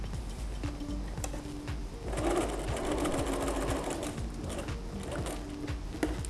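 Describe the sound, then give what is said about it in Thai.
A sewing machine stitches a bag onto an apron, its needle hammering in a fast, even mechanical rhythm throughout, with a brief shift in the motor's tone partway through as the stitching carries on. “เราก็เริ่มเย็บนะคะพอเราเย็บเสร็จเราหยุดสักนิดนึงแล้วก็ย้อนขึ้นไปนะคะย้อนขึ้นไปเนี่ยนะคะย้อนขึ้นไปสักนิดนึงย้อนขึ้นไป”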